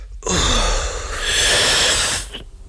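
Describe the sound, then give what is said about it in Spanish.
Deep breath drawn in through a smoking pipe and held: a long, steady, airy hiss of inhalation lasting about two seconds, then cutting off into quiet. “Inhala cuanto puedas y manténlo todo lo posible.”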